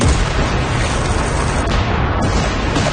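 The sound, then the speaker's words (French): A cannon battery firing, a sound effect of heavy, continuous booming that merges into one dense, loud rumble for about three seconds with no clearly separate shots. “Wolfe va faire installer ses batteries de canon sur la rive adjacente”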